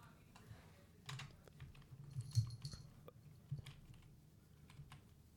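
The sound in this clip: Faint typing on a computer keyboard, irregular light clicks and taps scattered across a few seconds.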